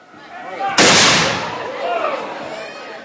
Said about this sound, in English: You will now hear them firing a single musket shot.